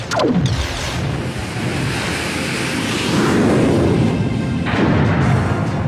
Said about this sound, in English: Now, fire phasers and engage hyperdrive.